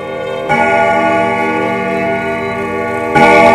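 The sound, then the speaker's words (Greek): A clock bell strikes twice, about three seconds apart. Each loud stroke is followed by a long, steady, ringing hum that carries on between the strikes. “Δευτέρα βράδυ, όταν το ρολόι χτυπάει 10,”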